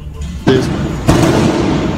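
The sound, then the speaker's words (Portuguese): Two sharp 7.62 rifle gunshots ring out about half a second apart, each a loud crack followed by a rumbling tail over low background noise. “Isso é tiro de fuzil, jovem. Isso é tiro de 7.62. Essa zoada eu conheço.”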